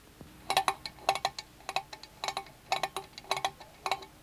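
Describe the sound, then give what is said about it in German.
Many crisp, steady ticks from Otto's inexpensive clock, bright and clicky, falling in a regular rhythm that sometimes sounds in close pairs, alone with no voices. “Das ist Ottos Uhr.”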